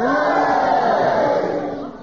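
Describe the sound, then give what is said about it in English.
Studio audience at a panel game cheering and booing at the same time, a loud, sustained roar of mixed voices that eases slightly toward the end. “If you agree with Peter Jones' challenge, will you cheer for him? And if you disagree, will you boo for Clement Freud? And will you all do it together now?”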